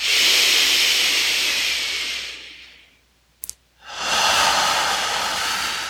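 Deep, slow breathing during a guided meditation: a long airy breath that fades to near silence, a brief click in the pause, then another steady, hissing breath.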